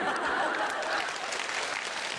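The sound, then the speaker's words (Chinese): Audience applause during a Taiwanese crosstalk comedy performance; a short, steady burst of many people clapping, even in level throughout with no clear break. “原来我就这么值得鼓掌是吧？”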